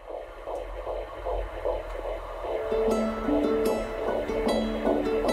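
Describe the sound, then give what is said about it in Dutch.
Heartbeat of a 12-week-old fetus: rapid, steady rhythmic pulses that repeat many times over a low hum, with a soft tonal melody joining about halfway through. “Zo klinken de eerste hartslagen van de hoofdpersoon uit deze podcast. Hij heeft zich nu in 12 weken ontwikkeld van een hompje cellen tot een klein wezentje.”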